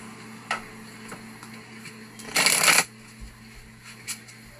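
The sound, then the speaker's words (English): A brisk riffle of a Romance Angels oracle card deck being shuffled, one short dense burst midway, with a few soft ticks and taps of the cards before and after. “Alright, I'm going to go ahead and pull out a Romance Angels card.”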